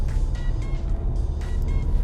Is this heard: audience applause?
no